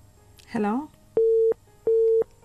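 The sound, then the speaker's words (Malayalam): A telephone busy tone follows a dropped call: two identical mid-pitched beeps, evenly spaced, each lasting about a third of a second. A brief voice is heard just before them. “Call ഡ്രോപ്പായി.”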